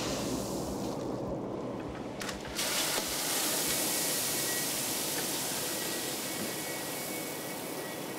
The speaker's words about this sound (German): Hier füllt er gerade Mais nach. Der wird in diesem Mahlgang zu Futter aufgebrochen.